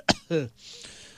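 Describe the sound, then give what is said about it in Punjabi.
A single short, sharp cough, then a brief voiced throat sound and a faint breathy hiss, all fairly quiet. “जान के नहीं सिखाए सच्ची खांसी आ गई”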